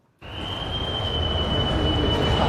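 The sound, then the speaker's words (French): Loud, steady roar in a noisy underground corridor leading to the tracks of a railway station in Bern. The noise starts abruptly and holds as a broad rushing wash with a thin, sustained high whine running through it. “Et maintenant, on est au sous-sol, dans ce couloir qui mène vers les voies. C'est beaucoup plus bruyant.”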